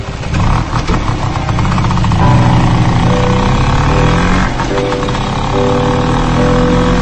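A motorcycle engine runs loud and steady throughout, a dense, continuous rumble with a few sustained tones on top.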